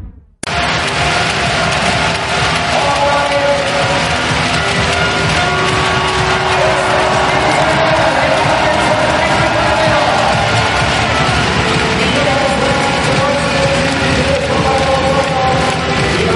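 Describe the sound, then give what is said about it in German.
Fans of TSV Hannover-Burgdorf cheer after the handball team's 24–19 win over HSG Wetzlar at the 2018 Final Four in Hamburg. A loud, unbroken roar of many voices carries chanting and whoops throughout. “Ihr hört im Hintergrund den Jubel. Das ist der Jubel des TSV Hannover-Burgdorf, der durch einen 24-19 Sieg gegen die HSG Wetzlar das Finale beim Final Four 2018 in Hamburg”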